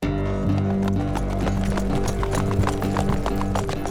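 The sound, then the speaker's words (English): Horses' hooves clip-clop as riders travel a long road, with an even, steady rhythm of many hoofbeats throughout. A sustained low tonal backdrop sits beneath them. “The road to Carlion was a long, arduous crawl. Arthur, Kay, and Morgana spent the first day riding in silence”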